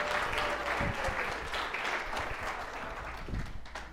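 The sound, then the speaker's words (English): Audience applause at a church sermon: dense, steady clapping holds at an even, moderate level for the full four seconds, with no talk over it. “Give a hand to Aries.”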